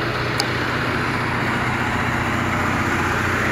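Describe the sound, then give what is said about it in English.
A Pacific Gas and Electric clean air vehicle powered by natural gas idles with a steady, even low rumble and broad engine hiss that stays constant throughout. “Pacific Gas and Electric has one of their clean vehicles out here. Clean air vehicle powered by natural gas.”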